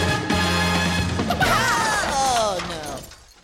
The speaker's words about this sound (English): Well, you know what you did see coming? You probably saw the news bumper coming.